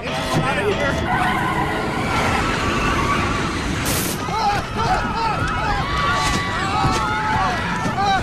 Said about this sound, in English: A stray bird is sucked into one of the engines. As the engine spews feathers, the aircraft slides out of control.